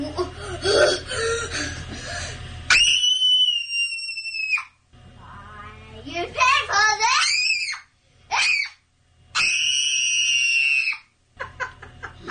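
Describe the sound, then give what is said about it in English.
A child's tantrum screaming, captured in a viral video, with shrill, piercing sustained shrieks, several long ones, alternating with choppy sobbing and whiny vocalizing between the outbursts. “But her mom has made a viral video where she is lip-syncing to her kid's tantrum. She recorded it, and now she's pretending to do it. And it's pretty spectacular.”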